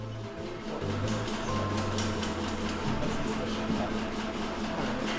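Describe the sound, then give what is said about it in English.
A sausage stuffing machine fills natural casings with a ground pork and beef mixture for half smokes, chorizo and longaniza, giving a steady mechanical drone with a low, buzzing hum that runs unbroken throughout. “That's the sound of thousands of sausages being made by an extremely expensive machine. It stuffs casings with the ground meat that makes chorizo, longaniza, and the thing we're most interested in, the half smoke.”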